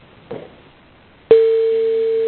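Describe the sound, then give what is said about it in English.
A phone tone comes through a call line: after a soft knock, a sharp click opens a loud, steady, continuous tone that holds unchanged to the end. “Somebody's got a phone ringing.”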